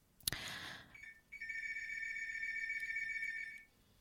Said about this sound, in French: je suis dans le studio, il y a le téléphone qui sonne, ça me dérange.